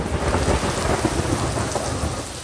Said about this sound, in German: ein Donnerhall. Das heißt, es donnerte über Barcelona aus dem Himmel